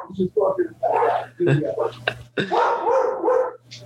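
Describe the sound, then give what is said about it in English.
A dog barks in a few short bursts amid ongoing conversation, the barks partly mixed with and masked by the voices, over a faint steady low hum. “Excuse me, that's my dog.”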